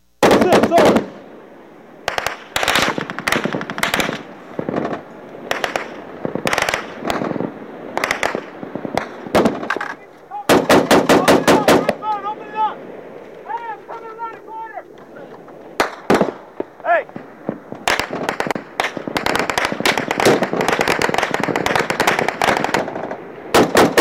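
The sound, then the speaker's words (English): Loud automatic gunfire from an everyday firefight in Afghanistan's Korengal valley plays back from a video: rapid bursts and sharp single shots separated by short gaps, with brief voices heard midway between volleys. “I'm showing another video here of a typical everyday Corngal firefight.”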